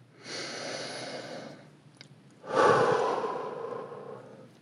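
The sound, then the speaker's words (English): A deep breath in two long, airy swells of breathy noise, each rising and fading smoothly, separated by a short quiet gap, with no voice alongside. “This is your weekly reminder to take a deep breath.”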